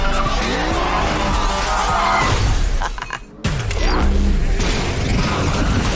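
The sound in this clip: A car's handbrake skid in a video game: a loud, wavering tire squeal over engine roar. It cuts out briefly near the middle, then resumes.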